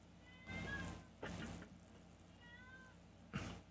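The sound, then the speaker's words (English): A cat meows a few times, fairly faintly, with drawn-out cries separated by pauses and a longer gap before the last, shorter meow. “That poor kitty cat.”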